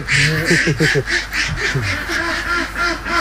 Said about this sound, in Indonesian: Untuk satu kandang seperti ini, biasanya kapasitas bebeknya mencapai 1.000 ekor bebek.